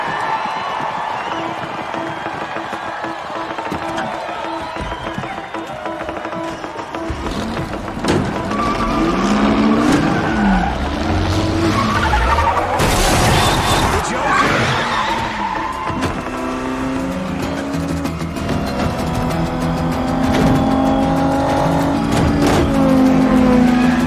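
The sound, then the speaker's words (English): Race car engines roaring during the Le Mans race in a film scene, a continuous drone that grows louder partway through, with a surge in the middle. “Well, you'll see here in the next clip as our movie finishes up, what actually takes place in the Le Mans race.”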